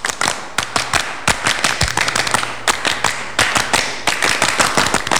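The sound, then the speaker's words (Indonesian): Pramuka scouts of Saka Bhayangkara Polres Madiun clap together in their patterned group rhythm: many sharp, crisp claps in tight clusters, loud and steady throughout, with no talking. “Dua kali tepuk pramuka.”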